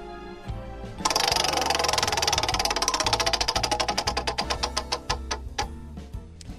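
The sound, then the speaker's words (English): A prize wheel spun for a radio call-in game ticks rapidly: a dense run of sharp clicks starts abruptly, then gradually slows, the clicks spreading farther apart as the wheel winds down toward a stop. “Let's spin the wheel.”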